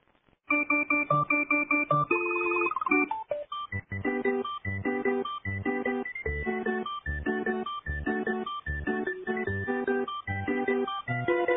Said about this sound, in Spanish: Tenemos una llamada, no sé quién debe ser.